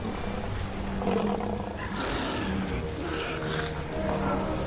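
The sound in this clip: A tiger roars and snarls while trying to leap out of a pit, a dense, rough rumble with broad hissing texture that swells in a few surges throughout.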